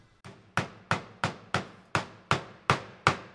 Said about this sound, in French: le marteau de, de, couvreur ardoisier qui va servir à venir frapper l'ardoise et la tailler pour avoir la dimension qu'on veut